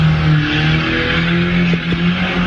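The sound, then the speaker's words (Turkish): A car drifting, its tires skidding and squealing over a steady engine drone, forming one continuous, loud, rough wash of noise with no pauses. “Otomobiliyle drift attı.”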